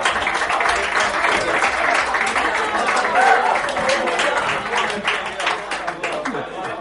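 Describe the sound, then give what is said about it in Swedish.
Applause for a returning guest on a Swedish show: dense, sustained clapping that stays fairly loud and even for the whole stretch. “En applåd igen då för Kalle”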